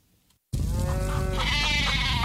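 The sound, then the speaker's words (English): Farm animals bleat as an earthquake approaches in the heartland: a wavering, nasal bleat rises over a loud, steady, broad rumbling noise that begins abruptly after a brief quiet moment. “Hey, everybody, calm down. It's okay. Oh, it's coming. The farm animals can always feel it.”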